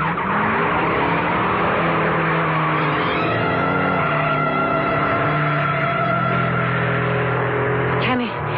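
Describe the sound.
A racing car speeds around a track curve, its engine a loud sustained roar whose pitch shifts partway through, ending with a brief drop in tone.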